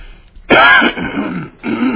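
A person coughs and clears their throat, with a sharp, loud first burst followed by a couple of rougher, lower throat-clearing rasps in quick succession.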